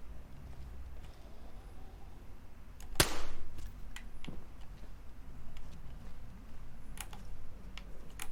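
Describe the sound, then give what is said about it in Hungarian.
A gunshot fired at zombies in a video game: one sharp, loud crack stands out against quiet background noise, with fainter clicks and taps scattered before and after. “Két lőszerrel kevesebb, ugyanitt két zombival kevesebb.”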